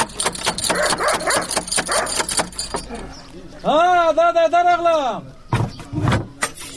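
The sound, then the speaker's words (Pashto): Knocking on a wooden door: rapid, sharp raps come in quick bursts over the first few seconds, mixed with other noise, followed by loud voices calling. “ته ودرېږه چې دا دروازه بیا ور وټکوم.”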